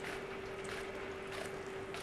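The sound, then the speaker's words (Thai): A banana slicer machine slicing bananas into sheets runs with a steady, even motor drone and a constant hum tone, and no distinct separate cuts. “ได้กล้วยมานะครับก็มาที่เครื่องสไลด์กล้วยนะครับสไลด์ให้เป็นแผ่นนะครับ”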